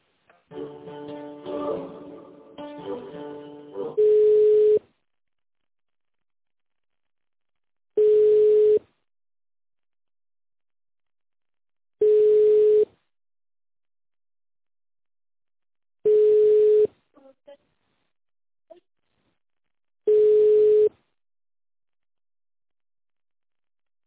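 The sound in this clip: Telephone tones as a call is transferred: five long, steady single-pitched beeps repeat evenly about every four seconds, with silence between them and a brief, busier tonal passage before the first.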